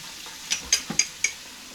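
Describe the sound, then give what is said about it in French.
Metal clinks from six rings knocking against metal in a kitchen while a coffee maker is filled: four bright, ringing taps spaced unevenly over about a second, with a soft thump among them, over quiet background. “Oui, c'est le bruit de mes bagues.”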